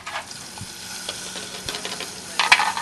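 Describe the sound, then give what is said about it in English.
A small soft-shell crab rolled in cornmeal fries in a pan with a steady hissing sizzle and scattered crackling pops, growing brighter and louder near the end. “He picks a small soft-shell crab out of a bucket and rolls it in cornmeal. And then I'm going to drop it in the pan, and everyone's going to want to stand back because they have a tendency to explode.”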